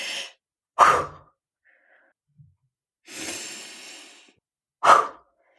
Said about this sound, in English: Now take another really deep breath or two and clear out the fear of vibration.